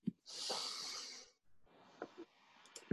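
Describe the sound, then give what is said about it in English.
Several people take a deep breath together during a group session: a long, airy breathy hiss, a brief pause, then a quieter breathy stretch with small clicks and snorts, all faint and without speech. “I would invite everybody to take a deep breath.”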